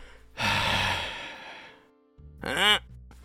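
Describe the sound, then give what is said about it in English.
A long, breathy exhale is pushed out until empty, followed by a short, strained, croaking vocal squeeze made while pressing on the neck. The squeezed sound rises in pitch and is brief. “Basically, exhale until there's nothing to exhale. Squeeze on your neck.”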